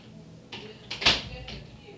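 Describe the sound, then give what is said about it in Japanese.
A door is closed with a soft thud among faint knocks and rustles, while people talk quietly. “これドア閉めます”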